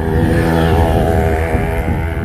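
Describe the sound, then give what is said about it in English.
A small but noisy motorbike engine drones loudly and steadily, a buzzy, harmonic-rich tone that holds throughout without voices. “So it's a small bike, but noisy for the size of it.”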